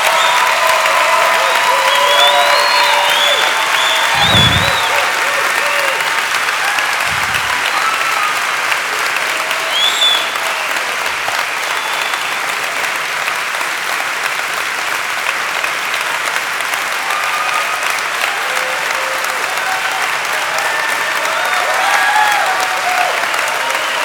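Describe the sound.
Steady audience applause welcoming the Vicar of Baghdad, Andrew White, to Grace Chapel: a dense, even wash of clapping that runs unbroken for the whole stretch without fading.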